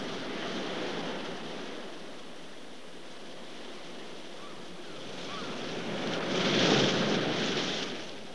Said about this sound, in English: Now they're looking out over the ocean.